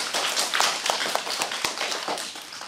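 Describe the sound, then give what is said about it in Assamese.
A group of people clapping their hands loudly, a dense, busy patter of sharp overlapping claps that keeps a fairly even level across the whole stretch, with no talking. “বাৰু এতিয়া আমি কি কৰিম, ডাঙৰকৈ হাত চাপৰি বজাই দিম।”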